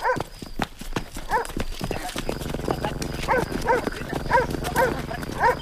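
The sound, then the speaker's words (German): A dog barks aggressively outdoors in a street scene, repeating harsh, loud barks through the second half, with brisk footsteps sounding alongside. “Hörst du den Hund bellen? Der Leute bellen ja ständig irgendwelche Köter. Nee, das klingt aber irgendwie aggressiver.”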